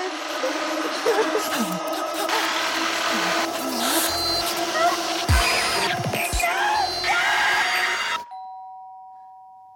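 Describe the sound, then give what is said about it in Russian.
Sawing in a film scene, a dense, harsh, continuous rasping noise under a musical soundtrack that runs for about eight seconds, then stops and leaves a clear ringing tone that slowly fades. “Пилит.”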